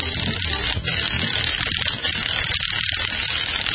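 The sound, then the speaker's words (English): A lug wrench ratchets as it raises a sign, making a steady, rapid mechanical clicking clatter that runs without a break through the whole clip, with no voices. “it's a good thing the lug wrench had some power in it to get that open sign up”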